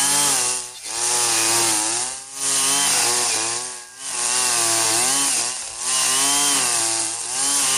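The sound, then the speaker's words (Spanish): A motorized brush cutter fitted with a copper-spool line cuts grass and weeds on a farm. The engine drones steadily and buzzes loudly, wavering in pitch and dipping briefly about every second and a half as the head bites into growth. “Voy a yerbar allí que ya me prendió esta guadaña.”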